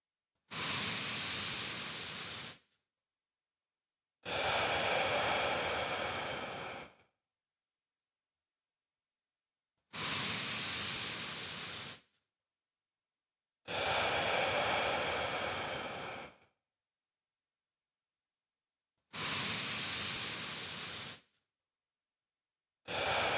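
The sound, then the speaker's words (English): Three big, deep breaths, in through the nose and out through the mouth, heard as six long, airy hisses of steady loudness, each about two to three seconds, separated by short silences. “So let's take 3 big, deep breaths. Ready? In through the nose, out through the mouth.”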